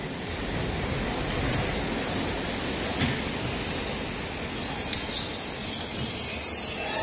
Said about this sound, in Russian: Экстренный поезд привез в цистернах морскую воду для саламандровых делегатов.